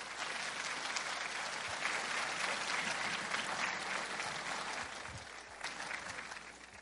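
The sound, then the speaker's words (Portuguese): Sustained audience applause for a speaker at a national Spiritist gathering, dense steady clapping that holds loud for most of the stretch and eases slightly near the end, with no talk over it. “Emanuel Alves da Silva é o nosso palestrante dessa manhã, por favor, palmas para ele.”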